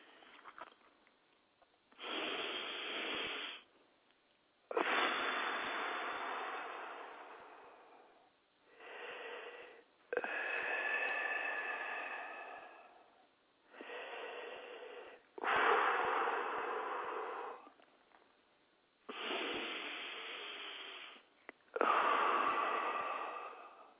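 Heavy snorting, wheezy breathing from a person, in a long series of loud, rasping breaths separated by short pauses, with no other sound.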